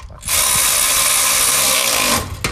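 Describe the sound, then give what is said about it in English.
An electric ratchet runs in a loud, steady mechanical whir for about two seconds, then cuts off, followed by a brief final burst. “So, yeah, it's probably electric ratchet time.”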